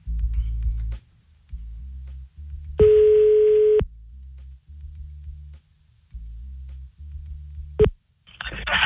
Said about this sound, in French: On appelle à Marseille maintenant. Et bonne chance, Jérôme. Merci. C'est parti.